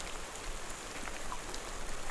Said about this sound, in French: Quasiment, parce que là, l'humidité, la pluie